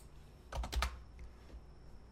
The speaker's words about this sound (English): Just type in Courtly. Come on, Scryfall.